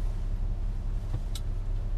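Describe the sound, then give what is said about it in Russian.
Car noise while driving along El Camino Real in Mountain View, a steady low road rumble throughout, fairly faint, with one brief sharper click near the end. “Вот мы едем по улице El Camino Real в городе, я думаю, мы сейчас в Mountain View. Да. Вот мы едем.”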